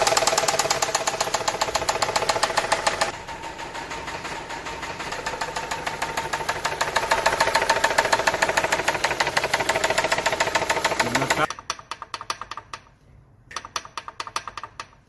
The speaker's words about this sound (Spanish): Esto, a altas o bajas revoluciones del motor, es un golpe constante que se escucha así.